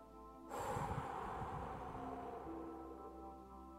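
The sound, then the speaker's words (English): A long, breathy exhale after a held breath during a relaxation exercise. It starts abruptly with a strong airy rush, then tapers slowly over about three seconds above soft, steady droning tones. “屏住呼吸，之后释放，放松，吐气，”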